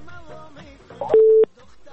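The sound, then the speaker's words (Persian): Single short, steady telephone tone after a caller's line to a call-in show disconnects, following faint talk. “تماست وصل شده بود، نمیخواستی صحبت کنی، چی رقم موضوع هستی؟ همین لحظه فکر میکنم که قطع شد.”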